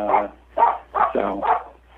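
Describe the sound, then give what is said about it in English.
A small dog barks in a quick series of sharp, yippy barks, each short and fairly loud, separated by brief gaps. “You have to excuse our little dog; he doesn't like to be separated from us.”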